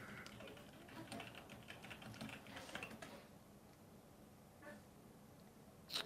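Quiet typing of a web search on a computer keyboard, with a quick run of soft keystrokes at first, then a pause broken by a few isolated clicks.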